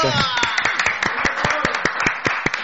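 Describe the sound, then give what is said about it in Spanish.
Audience applause for a guest, a student training to teach history, with many dense, steady claps that keep an even loudness from start to finish. “Un aplauso para Nacho.”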